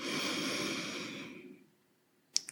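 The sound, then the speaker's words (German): A slow exhale through the nose during a guided breathing exercise. The breath is audible for about a second and a half and gradually fades into silence, followed by two short clicks. “Und dann über die Nase wieder ausatmen.”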